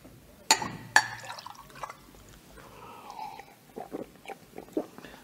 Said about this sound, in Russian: Эй, водонос! Да? Налей.